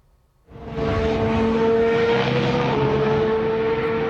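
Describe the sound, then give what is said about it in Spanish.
Engine of an Aston Martin Formula 1 car being tested with its new power unit: a loud, sustained mechanical drone with a steady whine that starts abruptly after a brief quiet and holds at a constant level, its pitch shifting slightly later on. “Aston Martin ha probado su nuevo motor.”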